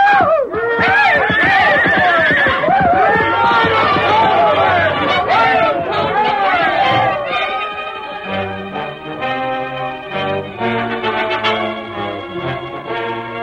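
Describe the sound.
A horse whinnies loudly and repeatedly, its shrill, wavering cries rising and falling while people talk and bustle around it.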